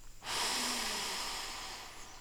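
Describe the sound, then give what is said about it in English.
One long, deep breath drawn in during a guided breathing exercise, a steady airy rush that starts abruptly and fades slowly over about two seconds. “So let's just start by taking a deep breath in”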